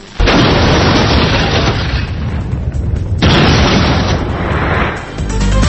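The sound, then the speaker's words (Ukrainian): A deep, roaring explosion from the first Soviet nuclear test: a loud, sustained rumbling blast that dips briefly midway and then surges again into a second long, heavy roar. “60 років після першого ядерного випробування в Радянському Союзі.”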